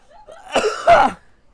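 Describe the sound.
Coughing from someone who has just swallowed a gnat: two harsh, loud bursts in quick succession, the second longer and stronger, with no talk around them.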